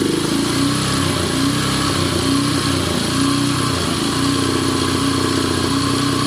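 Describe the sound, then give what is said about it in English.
A very tiny internal combustion engine, just kick-started, runs loud and steady with a constant buzzing drone and a rapid low putter that holds through the whole stretch. “My God, that's the sound of a very tiny internal combustion engine.”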